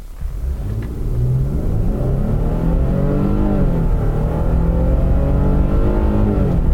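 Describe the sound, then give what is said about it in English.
A car accelerating hard from a stop, its engine revving loud and climbing steadily in pitch, dropping briefly around a gear change, then rising again with a deep, continuous roar and no talk. “I'm not going to do a power brake. I'm just going to lift and hit the throttle.”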